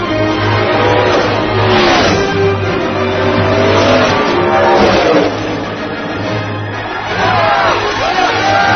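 Race car engines roar during a race, loud and continuous, with a few passes whose pitch sweeps up and then drops as the cars go by, over a background of crowd noise.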